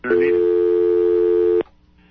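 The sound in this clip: A telephone line tone sounds on a call-in phone line. A single steady, mid-pitched beep lasts about a second and a half, then cuts off abruptly, leaving faint line noise.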